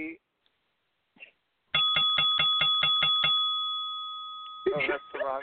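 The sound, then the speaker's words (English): A bell used as a judge's signal on a late-night panel show rings with a rapid burst of bright strikes, then a sustained high ring that slowly fades. Voices are heard briefly before it and again as the ring dies away. “Oh, you've got the bell”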